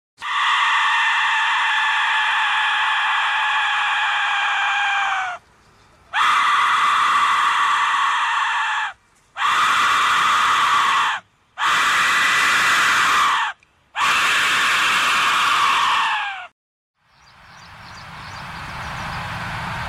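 A death whistle gives five loud, piercing, scream-like blasts of varying length separated by short silences, some sliding down in pitch as they end, followed by a fainter, breathy, noisy tone.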